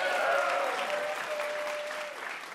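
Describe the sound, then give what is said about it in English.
A live quiz show audience applauds the VIP guests. The wash of clapping starts full and then gradually tapers off. “One more round of applause for our VIPs.”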